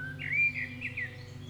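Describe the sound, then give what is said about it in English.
Birds singing outdoors on a spring day, with a few bright, high chirps and whistled phrases over a steady low hum. “I can hear the birds singing and see the sun and feel its warmth.”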